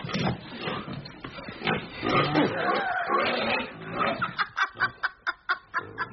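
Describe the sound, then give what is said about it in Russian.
A pig grunts and snorts while chewing on a wig, within a dense, busy stretch of sound that ends in a rapid, rhythmic run of short, loud grunts. “Свинья жрет парик.”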